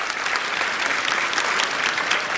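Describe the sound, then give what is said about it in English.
An audience applauds in a steady, dense patter of many hands clapping, moderately loud and even throughout with no break. “let's clap for her”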